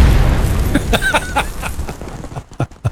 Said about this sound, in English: I don't think oxygen tanks do that when you shoot them.